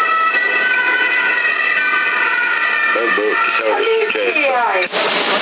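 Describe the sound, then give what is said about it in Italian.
An ambulance siren passing quickly, picked up through a CB radio receiver. Wailing, wavering tones sound narrow and radio-filtered over hiss, and voices come in over it during the latter part. “E un'ambulanza è passata veloce. Ma doveva essere scortata anche dalla polizia forse,”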